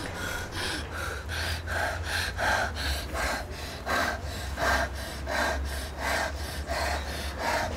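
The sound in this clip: A person leaning forward breathes in and out rapidly and steadily, with many airy, rasping breaths in an even, quick rhythm and no talk.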